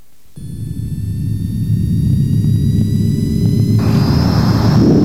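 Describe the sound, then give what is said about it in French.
A jet airliner taking off for Pointe-à-Pitre: a loud, steady engine roar swells over the first seconds and holds, with thin high whining tones above the rumble and no voices. “Les passagers à destination de Pointe-à-Pitre sont priés d'attacher leurs ceintures. Décollage immédiat.”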